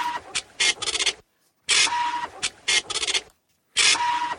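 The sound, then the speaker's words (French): A fax machine transmits, giving off three groups of harsh, buzzing scanning bursts. Each group carries a steady tone, and the groups are separated by short silences. “Le fax avec lequel Lionel Jospin avait transmis à l'AFP sa déclaration de candidature à la présidentielle”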